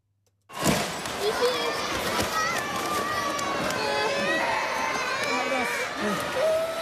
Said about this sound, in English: So that's the sound of items falling off shelves and children crying inside a retail warehouse.